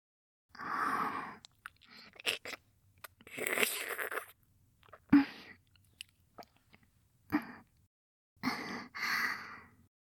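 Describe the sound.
Someone eating food, with irregular bursts of chewing and biting separated by short quiet pauses, along with soft breathy sighs.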